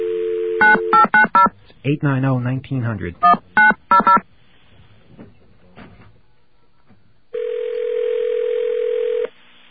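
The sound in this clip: Touch-tone telephone keypad beeps as a number is dialed on a second line to test a caller ID service. The beeps come as a quick series of short tones in two bursts with a brief voice between, then a long steady tone.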